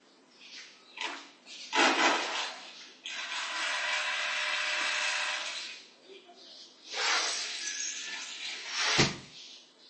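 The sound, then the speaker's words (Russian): A window being closed to shut out noise, with a long rumbling, scraping rattle between two sharp knocks, one near the start and one near the end. “Я попробую закрыть окно, простите. Может быть, будет тише немножко.”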